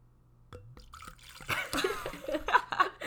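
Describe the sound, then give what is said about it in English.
Wine poured into a glass: a few seconds of gurgling, splashing liquid that grows louder and busier as the pour goes on, with no clear talking over it. “That's the sound of wine pouring.”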